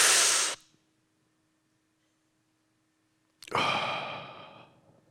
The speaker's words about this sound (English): You know what I just did? Let me tell you. I breathed in something called oxygen.